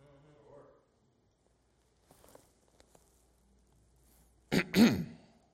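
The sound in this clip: A preacher clears his throat during a sermon: two loud, rough bursts in quick succession after a stretch of near silence, with faint speech and a few small clicks earlier.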